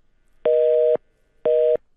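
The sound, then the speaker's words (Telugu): A telephone busy tone sounds after a caller's call drops: two even, steady beeps at one mid pitch with short silences between them and no voices. “Call cut అయిపోయింది.”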